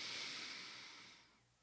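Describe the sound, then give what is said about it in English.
A breath drawn in through the nose during a slow calming exercise makes a soft, airy hiss that fades gradually over under two seconds, alone and without talk. “Breathe in through the nose for 4 seconds.”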